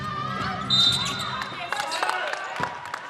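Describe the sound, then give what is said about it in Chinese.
Referee's whistle at a basketball game, blown as a player goes up to shoot after an offensive rebound: one sustained, high, shrill tone over crowd and court noise. “刚刚是 Sophia 拿到进攻篮板，准备要出手投篮的时候，裁判的哨音响了。”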